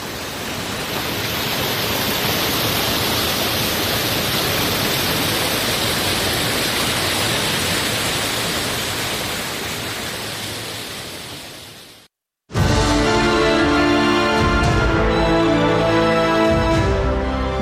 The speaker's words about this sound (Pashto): د اروزګان د مزار بابا په نوم دا چینه د دې ولایت یو له مشهور تفریحي او تاریخي سیمو څخه ده چې د ښکلي طبیعت او یخو اوبو په لرلو سره د خلکو لپاره د آرامۍ او ساتیري یو غوره ځای دی.